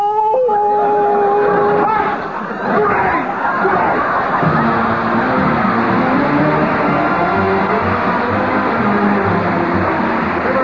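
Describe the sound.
A singing voice imitates a dog howling, holding one steady, sustained note for about two seconds before loud crowd hubbub and chatter take over.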